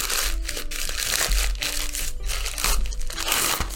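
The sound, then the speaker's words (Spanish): Paper wrapping is crinkled and torn off a bottle of Chilean Malbec wine: a loud, continuous rustle with several sharper ripping bursts. “Y esta, que está todavía, no le he sacado el papel. Acompáñenme en este proceso de ver qué es lo que es.”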